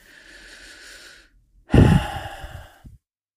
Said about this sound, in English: take a deep breath. And what I, you can just do this right now. Take a deep breath, close your eyes.